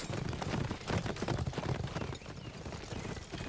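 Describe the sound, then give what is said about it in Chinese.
Hoofbeats of several horses ridden toward the listener, a dense, steady clatter of many hooves that holds at an even loudness throughout. “远远的看见树丛中飘着一面黄旗，几个人骑着马迎面过来。”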